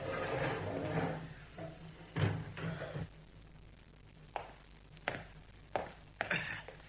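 A prison cell door in the Bastille being opened: faint wooden clunks and knocks, a few sliding scrapes and several sharp separate thuds, with no talk.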